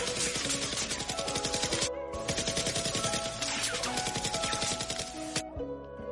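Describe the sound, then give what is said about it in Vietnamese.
Rapid automatic gunfire from an M4A1 rifle, fired off to empty the last rounds so it won't jam; many sharp shots in dense continuous bursts with a brief break near the middle, fairly quiet overall. “Còn nốt mấy viên, không bắn nó kẹt đạn mệt lắm. Cây M4A1 này riêng vụ tháo ra rất là phiền.”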